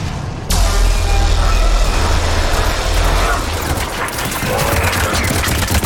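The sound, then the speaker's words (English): Gunfire in the Mass Effect video game during a battle against Reaper ground forces. It bursts in abruptly after a short quiet start, then keeps up as a loud, continuous mechanical rattle of rapid shots. “They're shooting.”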